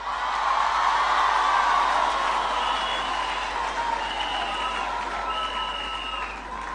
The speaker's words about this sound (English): Ladies and gentlemen, can we put our hands together and welcome Onesmus.